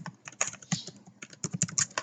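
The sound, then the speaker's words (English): Typing on a computer keyboard, a faint run of many quick, irregular clicking keystrokes with brief pauses and no voices. “So I can tell you while I type.”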